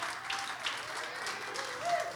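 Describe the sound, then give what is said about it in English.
A church audience applauds, a soft, steady patter of many hands clapping that stays fairly faint throughout. “Come on, One Life Church family in the room. Put your hands together. Show some love to our online church podcast family.”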